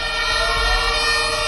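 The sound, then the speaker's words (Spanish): Fire engine sirens sound as crews arrive at a hotel fire in a building under renovation, with loud, steady wailing tones held throughout over a low truck-engine rumble. “Este es el sonido de esa llegada de los bomberos.”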